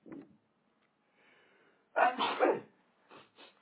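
A single sneeze bursts out sharply and loudly after a near-silent stretch, followed by a couple of short, quieter sounds.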